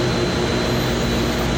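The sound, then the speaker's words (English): A hairpin forming machine running in a production setting, giving a loud, steady mechanical drone with a constant hum that stays even throughout. “And actually, this machine right here, hairpin forming, this is one of the most important parts of the process.”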